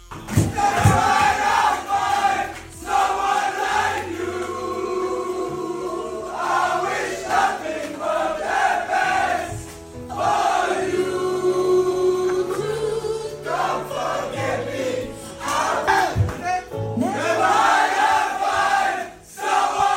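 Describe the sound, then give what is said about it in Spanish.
Borussia Dortmund players singing and shouting together in celebration, a loud, ragged chorus of male voices that swells and dips over several long sung lines. “Y como no, el sonido de la celebración de los jugadores del Borussia Dortmund.”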